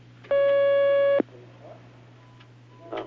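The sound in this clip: A telephone line tone sounds as a call is taken on a religious question-and-answer call-in line: one steady, loud tone lasting about a second over a low hum, then quiet with faint background noise.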